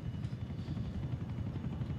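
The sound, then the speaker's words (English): A helicopter approaches in the video game GTA IV, a low, steady rumble with a faint pulsing rotor beat that continues evenly throughout, without speech. “Chopper's inbound. We'll shoot it down.”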